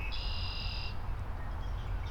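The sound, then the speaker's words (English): Frogs chirp in the reeds beside a boardwalk: one high, steady trill lasting about a second, then fainter calls, over a constant low outdoor rumble. “at my feet in the reeds here, we got lots of frogs. They're chirping, they're jumping.”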